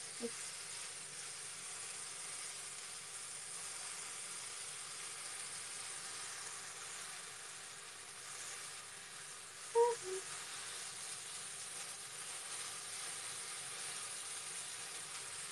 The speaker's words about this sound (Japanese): 油が飛んじゃうよ。